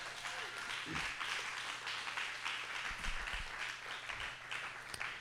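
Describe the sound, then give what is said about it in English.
Audience applause for the fathers on Father's Day at a church service, a faint, steady wash of clapping that runs through the whole stretch with a few low thumps. “Let's give it up one more time for the fathers.”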